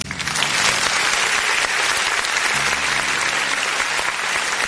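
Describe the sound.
Applause for the civil police officers of the 19th precinct in Ceilândia: dense, steady clapping from many hands that stays loud and even throughout.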